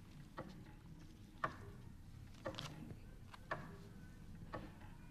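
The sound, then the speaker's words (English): Faint, crisp ticking comes from the master clock room that controls a radio service's clocks, five evenly spaced ticks about a second apart over a low, steady hiss. “This is the sound of the clock room that holds the master control for all the clocks of sound radio”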